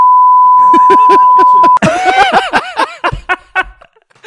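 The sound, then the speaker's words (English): A censor bleep, a steady single-pitched tone lasting under two seconds, sounds over laughing voices, then loud laughter and chuckling carry on alone. “I'm going to beep it out”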